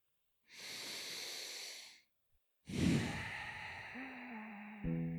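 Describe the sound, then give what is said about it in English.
Deep breathing during a guided relaxation exercise: one long, smooth breath, a brief pause, then a second, longer and fuller breath that fades out gently. The breaths are soft and airy, with no talking over them. “go ahead and close your eyes if you feel comfortable, and then give yourself a nice deep breath.”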